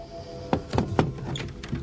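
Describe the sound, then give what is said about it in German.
A suitcase is opened with a few sharp clicks and thunks from its latches and lid. The sounds are faint and spaced apart. “Sie gehorchen mir. Öffnen Sie den Koffer.”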